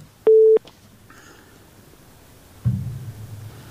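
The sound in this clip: A single short, steady telephone beep sounds after a radio call-in caller's line is cut off. Faint low noise follows afterward.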